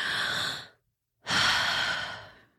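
Deep cleansing breaths taken during a guided visualization exercise: two long, airy, breathy rushes of air with a brief silent pause between them, the second slightly longer and fading gradually.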